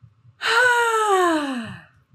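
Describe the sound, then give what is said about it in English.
A person yawns in one long voiced breath that starts strong and slowly falls in pitch as it fades, with faint low thumps before and after. “So I was gonna yawn there.”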